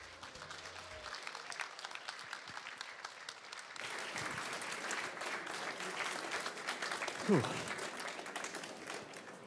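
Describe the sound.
Audience applause welcoming a speaker to the stage at a travel writers' festival at Destinations in Olympia, a sustained wash of many hands clapping that swells slightly after the first few seconds, with some talk over it.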